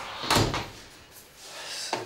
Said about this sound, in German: Alle Türen und Fenster zu, falls er wach wird.